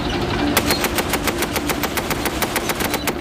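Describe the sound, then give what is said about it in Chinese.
Machine-gun fire during a tank battle: a continuous, rapid string of sharp, evenly spaced reports, loud and unbroken throughout, over a dense background rumble. “敌人很快开始新一轮火力袭击，子弹射穿坦克，击中了炮手路易斯。”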